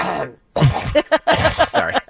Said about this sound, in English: Something caught in my throat.